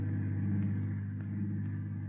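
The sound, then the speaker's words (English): A car engine drones as the vehicle drives swiftly along lonely, unused back roads. The low, steady hum and rumble stays even throughout, with no talk over it. “They keep off the main highways, keep clear of the state roads, keep driving swiftly along lonely, unused back roads.”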